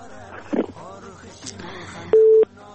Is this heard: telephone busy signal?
yes

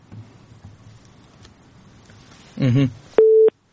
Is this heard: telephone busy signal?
yes

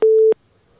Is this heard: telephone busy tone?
yes

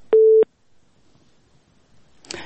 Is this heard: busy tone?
yes

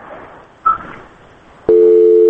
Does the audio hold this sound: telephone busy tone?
yes

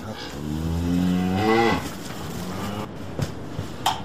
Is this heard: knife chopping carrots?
no

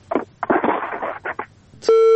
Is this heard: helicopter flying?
no

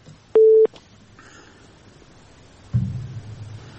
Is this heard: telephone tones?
yes

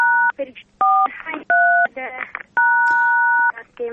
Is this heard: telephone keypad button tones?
yes

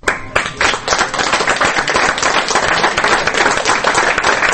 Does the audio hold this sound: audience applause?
yes

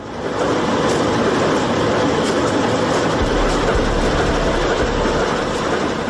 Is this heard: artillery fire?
no

